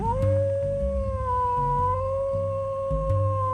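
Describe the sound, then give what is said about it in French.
A distant wolf howl rings out as one long, sustained, steady tone with slight wavering, drawn out over a low, shifting droning background throughout. “il entendit le hurlement d'un loup au loin.”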